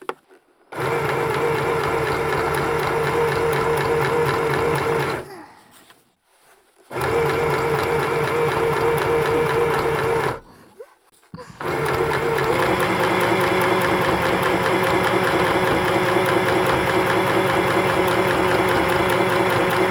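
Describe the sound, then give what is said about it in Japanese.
A sewing machine stitches fine, detailed parts with a steady, buzzing mechanical whir. It runs in three long stretches, split by two brief stops. “細かいところ縫うのが多めな箇所なので、たくさんの小気味いい音を楽しんでください。”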